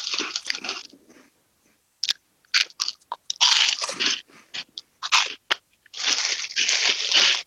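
Chewing and biting of spicy wine-gum style candies: loud, wet crunchy bursts in many irregular clusters, with short pauses between, and no talk.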